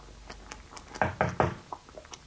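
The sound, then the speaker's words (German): Knocking on the door of a study room: three firm knocks in quick, even succession, with faint scattered ticks before and after. “An einem Februarabend des Jahres 1528 klopfte es an der Tür zu seiner Studierstube.”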